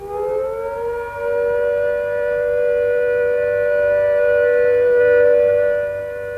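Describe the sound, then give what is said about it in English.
A civil defence all-clear siren sounds one long, steady, unbroken tone. It climbs briefly at the start, then holds a loud, even pitch throughout with no wailing, heard alone. “When the all clear sounds, like this,”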